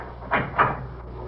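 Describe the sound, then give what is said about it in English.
The back door of a house being opened gives two short, hard clunks in quick succession, like a latch and then the door giving way, followed by a quiet hiss. “First, I want you to open the back door to this house and tell me what you see.”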